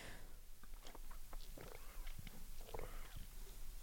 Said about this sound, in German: ich muss einen Schluck trinken, das ist das Zeichen fürs Trinken.